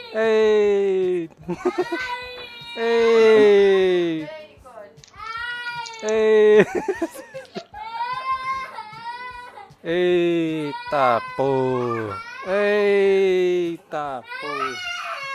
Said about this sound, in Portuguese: A mina chorando aqui agora